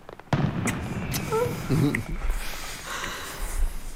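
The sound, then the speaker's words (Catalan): Fireworks rockets exploding: a few sharp pops and cracks followed by low rumbling booms, heard amid soft vocal sounds. “Has escoltat això? Sí. Són coets o és el meu cor? Són coets.”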